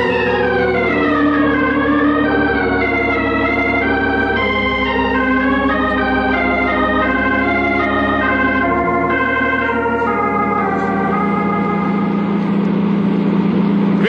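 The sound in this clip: A jeep engine runs loud and continuous while driving, a dense droning hum whose pitch wavers, dipping and rising again.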